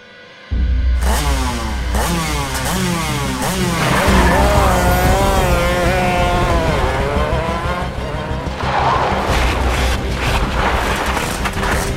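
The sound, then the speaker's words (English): A sand sled's engine roars loudly and continuously, its revving pitch sweeping up and down again and again, with scraping, skidding textures mixed into the drone. “You can take my sand sled. It's in the basement. Get you there quicker.”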